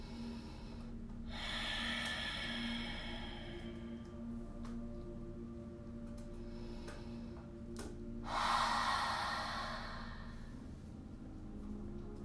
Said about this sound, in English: Take a few deep inhalations and exhalations, really exaggerating as you lift the lungs.